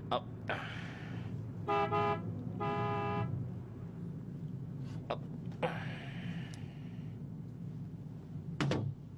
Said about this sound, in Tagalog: Businahan ko siya.